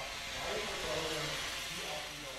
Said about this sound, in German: Wir können hier einfach unseren Heizdampf quasi aufdrehen und damit wird die Anlage geheizt.